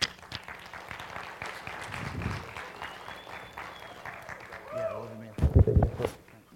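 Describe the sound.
An audience at a community church applauds a guest speaker with sustained, dense clapping that swells louder toward the end, where a voice briefly cuts through.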